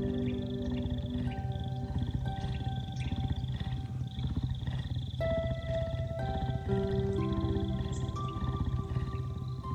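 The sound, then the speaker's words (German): Deep rumbling roars and growls of three tigers, loud and continuous through the whole stretch, layered over steady sustained tones. “Jetzt kommen die drei Tiger zu euch gelaufen”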